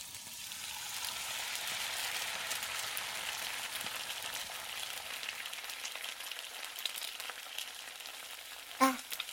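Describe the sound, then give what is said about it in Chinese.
Steak sizzling as it fries during home cooking, a steady, dense hiss that carries on through the whole stretch, with one brief sharp click near the end. “我在做饭呢”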